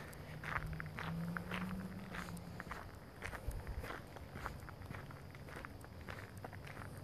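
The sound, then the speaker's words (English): Footsteps of someone walking in the dark, many soft, steady steps repeating at a walking pace throughout, fairly faint and without talk. “I guess it's kind of like walking in the dark, which I'm currently doing.”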